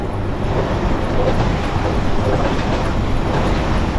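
Steady, dense rumble of a train with about four wagons arriving, a continuous rolling roar that holds at an even loudness throughout without distinct clacks.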